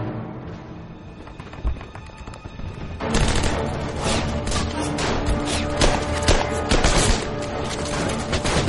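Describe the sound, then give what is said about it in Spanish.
Rifle gunfire aimed at a thick, coated bridge cable: a quieter stretch opens, then loud, crackling shots and impacts burst densely and keep going for several seconds. “Saca su rifle y le dispara tres veces al cable, rompiéndolo completamente.”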